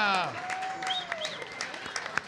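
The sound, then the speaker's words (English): An audience applauds for retired and working Chicago firefighters, police officers and teachers, with steady clapping and raised voices over it. “but we want to give them a round of applause.”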